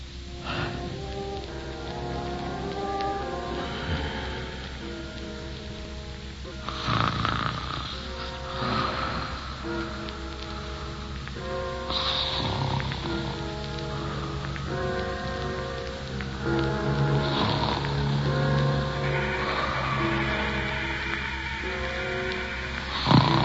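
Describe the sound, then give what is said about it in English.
Snoring from someone dozing off for a short catnap, a few drawn-out rasping breaths recurring at intervals over a steady hiss like falling rain. “Oh, boy, I'm getting sleepy. Maybe a little catnap wouldn't hurt. Just a little one.”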